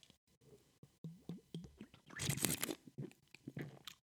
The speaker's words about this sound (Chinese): 让我先喝一口啤酒。大家有在喝啤酒吗？